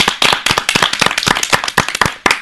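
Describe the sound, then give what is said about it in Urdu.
An audience claps loudly for a child at a program: dense, sharp, overlapping claps that stay strong and even for the whole stretch. “تہٕ أمِس بَچی ہُنٛد کَرو شُکریہ اَدا, أمۍ سٕنٛدِ خٲطرٕ زوردار ژَٹپو”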